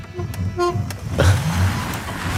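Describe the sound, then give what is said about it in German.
A couple of short, high horn beeps from an electric Schwalbe scooter, followed by a low rushing whir as it sets off, moderately loud with no engine roar. “Schwalbe an. Hupe funktioniert. Ja, los geht's.”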